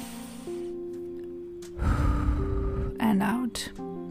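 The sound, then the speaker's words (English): A deep breath drawn in and let out during a guided relaxation exercise, a soft rushing breath of a few seconds over a steady, quiet sustained tonal background. “Take a deep breath in and out. Take another deep breath in”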